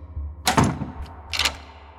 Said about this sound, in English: closed the door behind him